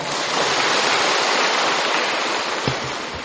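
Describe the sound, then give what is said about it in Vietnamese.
Applause from an audience at a Buddhist dharma talk: a dense, even wash of many hands clapping that stays loud throughout and eases slightly at the end. “cho anh chàng pháo tay.”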